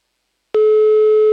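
A telephone call rings out with a pure, steady electronic tone that switches on abruptly after silence and holds level and loud to the end.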